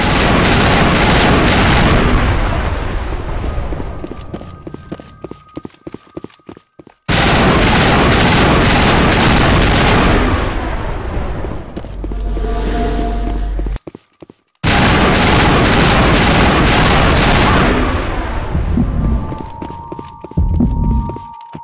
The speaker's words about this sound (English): Okay, so when they explode, they do enough damage that I maybe shouldn't have just walked around them and had them blow up in my face.